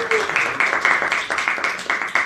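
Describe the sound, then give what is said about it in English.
Audience applause for a show guest, heard as evenly spaced claps in a steady, brisk rhythm. “please give a big round of applause to Kate”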